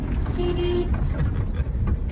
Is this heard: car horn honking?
yes